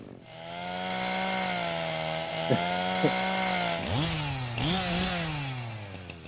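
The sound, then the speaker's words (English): Power saw cutting through tree roots, a loud, steady droning engine whine whose pitch sags and recovers a few times in the last seconds as the blade bites into the wood. “I might have to cut the roots and it might kill the tree, but that's neither here nor there. But I just thought I should let you know. Because there's gonna be some noise.”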